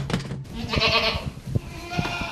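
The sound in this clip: Goats bleat inside a barn on a goat farm: a few short, wavering bleats over a steady rustling background.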